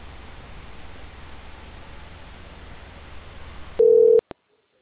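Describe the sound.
Telephone line on hold during a call transfer: steady hiss for nearly four seconds, then a short, loud, steady tone, followed by a click and silence.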